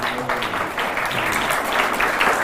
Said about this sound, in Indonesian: Masalah tepuk tangan ini saya teringat satu kisah.